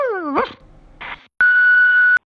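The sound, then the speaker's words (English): A dog gives a short whining yip whose pitch dips and then rises, followed by a brief noisy burst and then a steady, loud electronic tone lasting under a second. “Can't wait to bark at you.”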